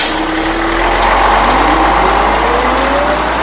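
A car engine for the Black Mobile in a comedy skit rumbles steadily and loudly, with a whining tone that climbs gradually in pitch as it runs.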